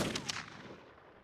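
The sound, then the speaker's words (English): A gunshot rings out in a dramatized scene as Hyman Biller shoots Arnold Rothstein: one sharp, heavy blast at the start with a tail that slowly fades away. “At the behest of his boss, Hyman Biller shot Arnold Rothstein square in his side.”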